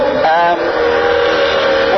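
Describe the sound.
Loud, steady car noise outside, a constant droning rumble with a humming engine-like tone that holds at an even level throughout.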